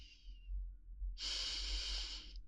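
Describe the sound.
A deep inhalation through the nose, taken while smelling a scented hair-care product on someone's hands. A short soft breath comes first, then a long, steady airy hiss of about a second.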